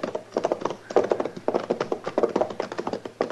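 Horse hooves clop steadily as a horse-drawn wagon approaches along a frontier trail near Dodge, a brisk, even rhythm of many hollow hoofbeats, moderately loud and continuous throughout.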